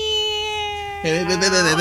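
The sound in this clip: A person imitates a cat's meow with a whiny, drawn-out vocal cry that starts abruptly after a steady held tone.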